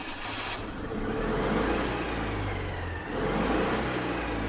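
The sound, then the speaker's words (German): A grandmother's car accelerates, its engine a low, steady rumble that swells, eases briefly, then swells again, with no voices over it. “Die Großmutter gibt Gas.”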